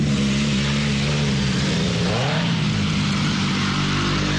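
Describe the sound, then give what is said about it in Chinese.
A motorcycle engine roars at a motorcycle camping site, a loud, continuous drone with a steady low harmonic rumble that holds through the whole stretch. “哇，可以感受到这个机车露营的感觉了。已经有这个机车的轰鸣声了。”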